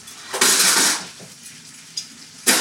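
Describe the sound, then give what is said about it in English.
Metal utensil scraping and clanking in a pan while stirring pasta with tomato sauce and fresh basil: one longer scrape, then a few brief sharp knocks against the pan, with no talking. “Just lovely fresh basil on top. Okay, nice. Stir it and pull it.”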